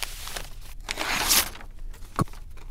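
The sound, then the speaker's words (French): Rustling and crinkling of large sheets of thick paper as artworks, including a watercolour and drawing, are wrapped in three layers, with a broad crumpling swell in the middle and a few sharp crackles and a snap near the end. “emballer les œuvres que nous protégeons de 3 grandes feuilles de papier épais”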